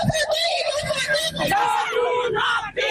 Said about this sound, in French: Hier, des manifestantes ont donc crié leur colère à Dakar.